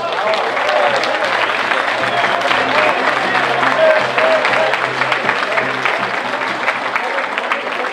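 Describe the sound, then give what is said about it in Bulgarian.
Audience applauding loudly at a BSP political rally in Sofia: dense, steady clapping from a large crowd, sustained at full strength throughout with a few scattered voices mixed in. “Нека да ги аплодираме силно!”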